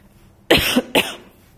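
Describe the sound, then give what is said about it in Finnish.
Two short, harsh coughs from a person, the second following about half a second after the first. Both are loud and stand alone with no talk. “Nyt anteeksi, mun täytyy ottaa vähän tässä vettä, kun huomaa, että alkaa yskittää.”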